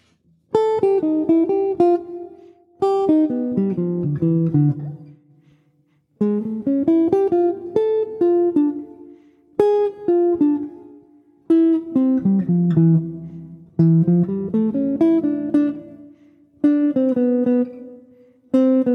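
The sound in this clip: Short, choppy jazz solo phrases on a pitched instrument: several brief bursts of quick notes with sharp attacks and decays, each separated by a clear pause, played alone without talk.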